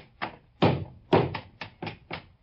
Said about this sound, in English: I'm going to take the same gun and pound it on the floor. And now I'm going to hammer it and knock it.